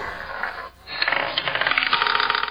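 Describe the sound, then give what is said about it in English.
Roulette wheel spinning with a marble rolling in it: an initial whirring swish, then a dense, rapid run of small clicks and rattles as the ball skitters around the track, steady and fairly loud with no voices. “I've replaced numbers on a roulette wheel for names of the investment gurus. I'll spin the wheel and roll the marble and flex the guru”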